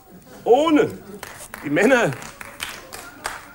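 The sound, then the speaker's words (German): Scattered applause from a cabaret show audience, a few sparse claps sounding under a speaking voice. “Das ist ein pazifistischer Beifall, haben Sie das notiert?”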